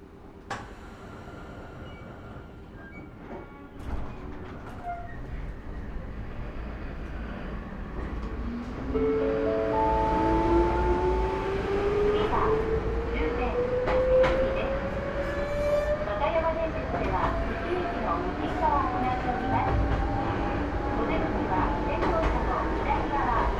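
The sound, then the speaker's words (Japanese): A train pulls away after its doors close. A low rumble grows into a steady electric motor whine that climbs smoothly in pitch as the train gathers speed, with light rattling underneath. “扉が閉まります。ご注意ください。”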